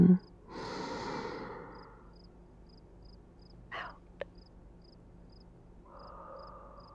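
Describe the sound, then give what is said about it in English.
Slow deep breathing from someone calming a panic attack: a long, airy breath early, a short soft puff midway and another gentle breath near the end, with a faint, regular high beep repeating underneath. “Not exactly the right tools to fight a panic attack. Is that a smile? Oh, there you go. Keep breathing with me.”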